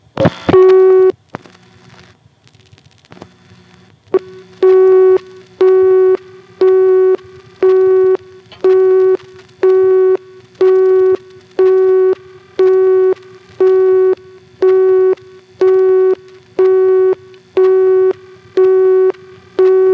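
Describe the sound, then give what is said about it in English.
A telephone busy signal from an electromechanical exchange register, reached by dialing directory assistance: after a few clicks and a short burst at the start, a steady tone pulses on and off in an even, regular rhythm many times. “One of them is the busy signal that we get from the register when we dial 102 for directory assistance.”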